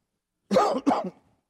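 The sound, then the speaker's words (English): A lingering cough left over from allergies: two quick, dry hacks in close succession, moderately loud and heard alone against silence. “I do have a little bit of a cough left over from my bout with the allergies.”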